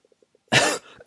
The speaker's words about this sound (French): excusez-moi, la saison hivernale fait que je tousse un petit peu